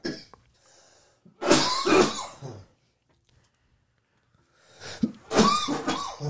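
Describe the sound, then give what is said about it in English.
Coughing from someone choking on a Brussels sprout: a harsh burst of coughs, a quiet pause with faint breaths, then a second loud cluster of coughs and throat clearing. “Excuse me. I thought you was going to get that all out of the way before we started. Got choked up. I'm good. Brussels sprout go down wrong?”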